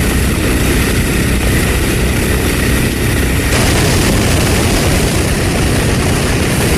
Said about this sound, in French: C'est un avion qui arrivera au Mexique sans escale. C'est très important. se dirige toujour vers l'extremité sud de la piste de l'atterrissage de l'aéroport.